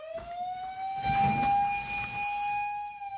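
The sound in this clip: A fire station alarm siren at a smokejumper firefighting base sounds a loud, steady wailing tone with strong harmonics. It rises slightly at the start, then holds level for about three seconds.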